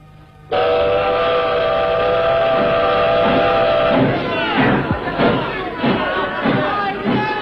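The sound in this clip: A train whistle blows a long, steady chord as a train departs in a staged opera scene. Rhythmic chugging and clanking of the moving cars follow, with voices over them.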